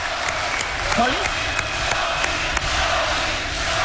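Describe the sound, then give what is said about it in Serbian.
A crowd chants in a steady, loud, dense roar of many voices, broken by a few sharp claps. “Dobili ste vest, tu smo, ja puštam da vi čujete ovo skandiranje, kužite.”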